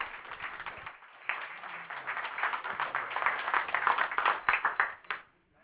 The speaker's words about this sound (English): so let's give them a real big hand. Come on, welcome them.